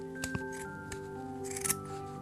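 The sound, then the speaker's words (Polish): Scissors cutting through folded fabric doubled into two layers, giving a few crisp snipping clicks spread irregularly across a steady, quiet background. “a mogę zrobić tak, że złożę teraz materiał na pół wycinając i będę miała od razu dwie warstwy w tym samym kształcie? Tak, genialne. Genialne w swojej prostocie. Dobrze, to wycinam.”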